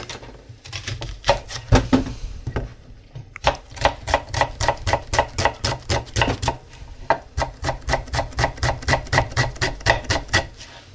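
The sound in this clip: A knife cuts a small onion on a board with rapid, rhythmic tapping strokes. The chopping comes in bursts, briefly pauses, then resumes as a long, even run of many quick cuts.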